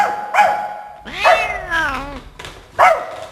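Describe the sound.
A man's voice imitates a big dog barking: a few loud, deep, voiced woofing calls, one of them long and drawn out, with short pauses between them.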